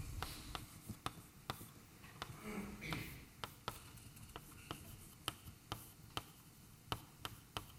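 Writing a formula on a board during a mathematics lecture, heard as faint scratching with many sharp taps spaced irregularly, over a low, quiet background.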